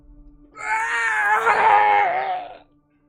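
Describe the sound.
A loud scream of pain rings out in a forest, one sustained, wavering cry lasting about two seconds, strained and anguished, rising out of near silence and then cutting off.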